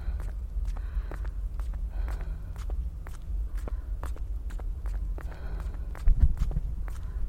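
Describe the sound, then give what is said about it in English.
Footsteps walking on vibrating ground: many steady, evenly spaced steps in a regular rhythm over a continuous low rumble. “I can kind of feel it in my legs as I walk.”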